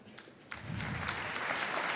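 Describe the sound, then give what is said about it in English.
An audience applauds as a speaker is introduced at a conference talk. Dense, steady clapping breaks out after a brief quiet moment and stays loud and even to the end. “Please give a very warm applause.”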